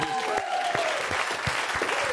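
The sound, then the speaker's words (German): Audience applause on a German radio show: steady, dense clapping from many hands that continues evenly for the whole moment without a clear start or end. “Großen Applaus.”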